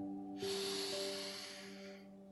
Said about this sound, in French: Inspirez par le nez fortement, en sentant la bonne odeur monter à vos narines.